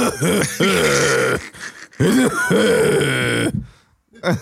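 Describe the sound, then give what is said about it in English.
Coughing and throat clearing, rendered as rough, guttural, strained voiced bursts: two long loud efforts, then a short one after a pause. “are you done? Are you done coughing?”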